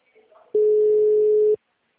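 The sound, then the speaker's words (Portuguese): Telephone call ringing unanswered: one steady, flat electronic tone about a second long, loud and alone, after a faint brief sound. “Ligando pro Danilo e não aparece.”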